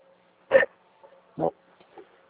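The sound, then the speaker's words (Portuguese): A dog barks on the street: two short, loud barks about a second apart, followed by a few faint, brief noises. “É que eu tô na rua fazendo isso aqui, tem um cachorro aqui.”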